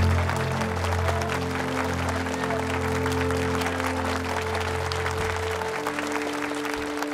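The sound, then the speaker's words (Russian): Applause fills a film scene where everyone claps and shakes hands, a dense, steady patter at even loudness throughout, with held low tones running beneath it. “Все аплодируют, пожимают друг другу руки.”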